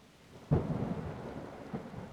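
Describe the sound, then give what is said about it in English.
A thunderstorm: a sudden thunderclap rolls into a low rumble over steady rain, followed by a second, smaller rumble near the end, with no voices. “Oh my god. This storm is getting insane.”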